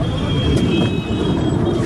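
Car from the home village, heard as a loud, steady low engine rumble with a dense road-noise hum that continues without a break.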